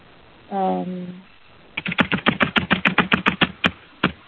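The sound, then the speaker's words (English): Loud typing on a noisy computer keyboard: many sharp, clacking keystrokes in quick, uneven succession. “Typing really, really loudly. Somebody's got a really noisy keyboard.”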